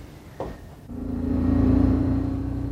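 Car engine rumbling while driving, a low steady drone that swells and grows louder midway, then holds, with no voices.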